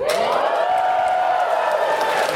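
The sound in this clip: A live crowd at a PAX gaming convention panel cheers in answer to a question from the stage, one loud sustained whoop held evenly from start to finish.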